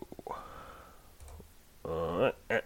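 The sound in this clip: A few quick computer mouse clicks while playing a video game, followed by a voice speaking.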